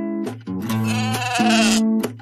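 Sheep bleat in a loud, wavering, nasal series of a few calls with short breaks between them, with no talking.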